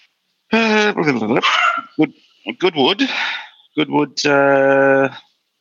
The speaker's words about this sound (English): Whose dog's that? I'm just chasing my dog.